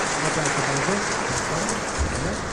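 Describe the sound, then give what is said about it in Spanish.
Spectators applaud at a car rally in Galicia as the winning driver and co-driver are introduced, a dense, rain-like patter of clapping that stays steady throughout. “público aplaude.”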